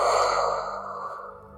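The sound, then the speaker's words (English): A slow, airy breath during a guided sleep relaxation exercise: one soft, steady hiss that starts fuller and gradually fades over about a second and a half, with no talking. “One more together. Breathe in and out.”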